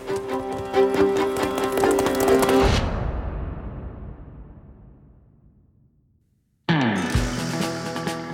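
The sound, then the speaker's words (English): A horse galloping away into the night: rapid, rhythmic hoofbeats that grow steadily fainter over several seconds until they die out into silence. “With another bow and a flourish, he mounts his faithful Black Bess and gallops back north into the night.”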